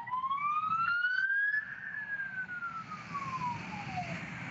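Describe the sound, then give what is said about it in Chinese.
Police car siren wailing on a street during a protest, a loud continuous tone that climbs in pitch and then slowly falls, over a steady rumble of background noise. “现在你可以看到，现在警车都在推进哈。”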